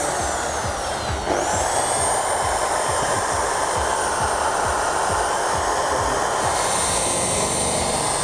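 A polishing machine running at speed setting two and a half gives a steady, continuous high whirring whine that holds evenly throughout with no talk over it.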